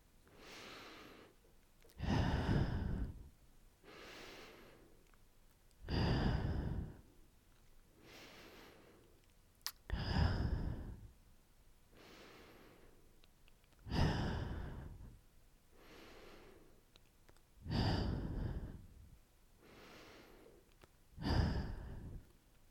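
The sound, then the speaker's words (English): Six slow, deep breaths, each a soft inhale through the nose followed by a louder, airy exhale through the mouth, in an even, unhurried rhythm with no talk. “Take six deep breaths with me in through your nose and out through your”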